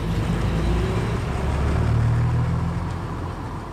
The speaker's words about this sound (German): Das ist schon der dritte Bus, der mich nicht mitnimmt.